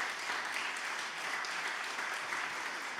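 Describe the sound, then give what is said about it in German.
An audience applauds a performer at a live show with a dense, steady wash of clapping from many hands, heard faintly and evenly throughout. “Der Applaus ist ja des Künstlers Brot sozusagen. Vielen, vielen Dank, dass ihr so ein freundliches Publikum seid oder wart.”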